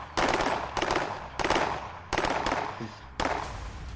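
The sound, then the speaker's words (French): Gunfire in a Gotham-set role-play game as a character grabbing a gun is riddled with bullets: five loud, sustained bursts of rapid fire, separated by brief gaps. “Tu viens de saisir un flingue et tu te fais cribler de balles.”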